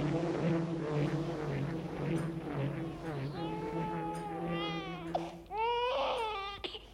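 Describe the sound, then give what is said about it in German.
A child cries with strained, wavering wails that rise and fall in pitch, growing sharper and more broken toward the end. “Warum schreit dieses Kind noch immer?”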